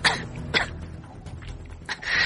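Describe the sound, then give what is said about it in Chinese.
A man gives a light cough: a few short, soft throaty bursts over faint background noise. “徐增轻咳了一声”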